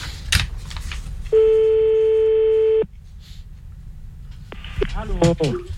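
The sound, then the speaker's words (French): A telephone line rings once with a long, steady electronic tone after a number is dialled. A shorter tone follows, then brief voices near the end, with a short burst of talk at the very start. “Tu veux faire le numéro, normalement, c'est parti. Ouais. Voilà, j'y mets le téléphone, voilà. Et puis on y va.”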